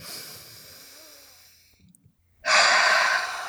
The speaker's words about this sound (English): Deep breath.